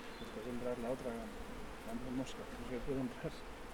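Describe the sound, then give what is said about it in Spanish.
Bees buzzing as they are brushed off a honeycomb, a dense, wavering hum that swells and dips continuously throughout. “Y ahora tenemos que quitarle las abellas con paciencia y cariño.”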